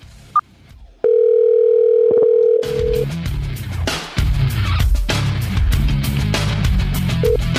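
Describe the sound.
Telephone dial tone as a call is placed: after a short click, a loud, steady electronic tone holds for about two seconds before music takes over.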